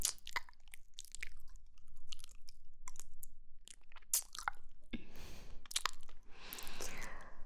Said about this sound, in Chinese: 宝贝的耳朵，不知道还是不是跟以前一样好吃呢？